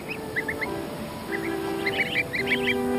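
Greylag goose goslings on waterside grassland give many short, high peeps in quick clusters, growing busier toward the end over a low, steady background.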